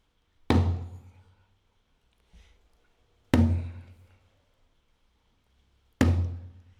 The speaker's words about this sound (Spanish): Pues listo, por acá tengo un djembe y suena así.